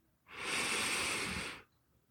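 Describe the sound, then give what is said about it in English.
A single deep breath, a steady airy hiss lasting just over a second that rises in and fades out, quiet and alone. “I just want to, for all of us, to just take a deep breath in.”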